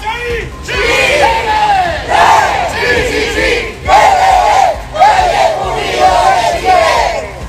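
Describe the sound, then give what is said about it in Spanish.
About a hundred Malleco Unido football supporters chant while marching through the Plaza de las Siete Fundaciones in the city centre. Loud massed voices repeat short rhythmic phrases in regular bursts. “ahí está parte del sonido ambiente de un centenar de hinchas de Malleco Unido que salieron a marchar durante esta tarde acá en el centro de la ciudad”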